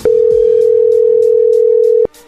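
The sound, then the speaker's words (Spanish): A telephone ringback tone from an outgoing call: one sustained, steady, mid-pitched tone that holds for about two seconds and then cuts off abruptly, fairly loud and heard alone. “A ver, ahí entró la llamada.”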